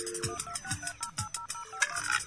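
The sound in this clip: An electronic telephone ringtone sounds for an incoming call, a quick, steady pattern of short, bright beeps and chirps repeating throughout at moderate volume.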